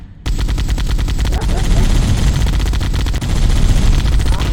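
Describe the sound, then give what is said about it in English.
Rapid automatic gunfire in a video game comes as a loud, dense stream of shots with a couple of brief breaks, and nothing else is audible. “Are you shooting something? I'm not shooting at an enemy, I was just shooting to shoot.”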